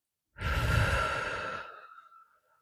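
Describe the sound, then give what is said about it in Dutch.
One deep, breathy sigh rises quickly and fades out over about two seconds, heard alone. “Dus sta even recht en we gaan eventjes in en uit ademen. In en uit.”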